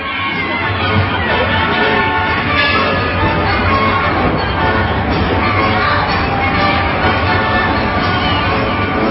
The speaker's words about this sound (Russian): У входа в цирк толпились люди, а у билетных касс стояли очереди.